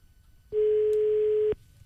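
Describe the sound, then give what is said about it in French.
Ringback tone on a telephone line as a call is placed: a single steady, mid-pitched tone about one second long that starts abruptly from near-silence and cuts off cleanly. “on appelle Rémi, Clara, d'accord?”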